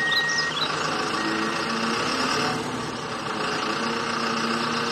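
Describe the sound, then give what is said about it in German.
Tow truck engine running at a roadside job, a steady, dense idling rumble with a constant whirring hum that dips slightly midway, heard alone without talk. “damit der Abschleppdienst hier in Ruhe arbeiten kann. Wir schauen uns das alles gemeinsam aus sicherer Entfernung an.”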